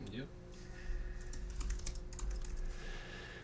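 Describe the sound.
Rapid typing on a computer keyboard as a search is entered, a quick burst of many light key clicks through the middle, quiet, with a brief voice at the start.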